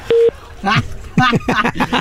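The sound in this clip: A steady telephone line tone after a caller's call dropped, one short loud beep at the start, followed by people talking.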